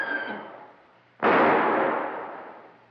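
A gunshot during a shootout in a cave: a single sudden, loud blast midway through, followed by a long, slowly fading roar. A fainter tonal sound comes before it.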